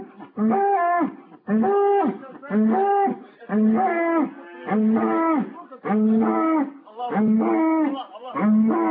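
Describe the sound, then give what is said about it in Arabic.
A cow moos over and over in a long series of loud, low, drawn-out calls with a regular rhythm and short gaps between them. “عايزكم تركزوا قوي قوي في البقرة دي، هم تفاجئوا بيها. اسمعوا بتقول ايه.”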